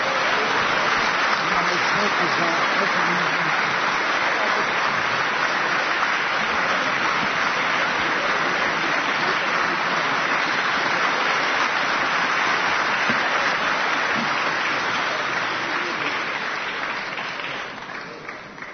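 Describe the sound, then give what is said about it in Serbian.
An audience claps for a lifetime achievement award winner at a Serbian music awards ceremony. The applause is loud, dense and sustained throughout, then thins and fades near the end. “Znam da nećete štedjeti aplauz, jer ćemo sada najaviti još jednog dobitnika za životno delo, a to je gospodin Šaban Šaulić.”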